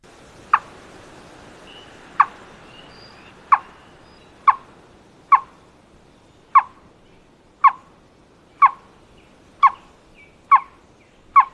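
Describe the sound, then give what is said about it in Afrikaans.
Sharp, knocking bird calls like distant wood chopping, from a bird with a yellow patch by its ears that nests in holes in soft, dead trees. About eleven evenly spaced, mid-pitched knocks sound alone over faint background hiss. “Nog 'n ding wat nogal interessant is dat hulle roep, klink nogal soos iemand wat hout kap deur in die verte. Dit klink so.”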